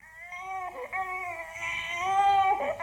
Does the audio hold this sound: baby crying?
yes